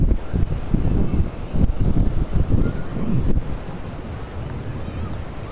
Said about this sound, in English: There's a little bit of wind. I hope that's not interfering in the microphone too much. I don't have the windsock on today on the microphone.